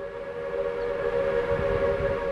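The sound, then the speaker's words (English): A steam locomotive whistle sounds one sustained, steady note whose loudness swells slightly, with a low rumble underneath. “He could control the amount of steam going into the whistle and make a very nice sliding note in terms of its volume.”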